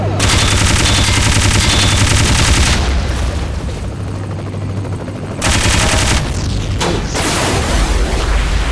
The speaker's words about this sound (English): Machine gun.